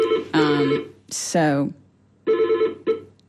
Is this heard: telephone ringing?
yes